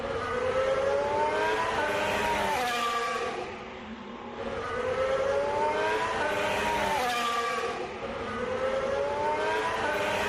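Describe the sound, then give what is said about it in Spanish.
The new Williams Formula 1 racing car's engine gives a high, whining howl that swells and fades in repeating waves, moderately faint and heard alone. “he podido grabarle y así suena el nuevo Williams de Carlos Sainz”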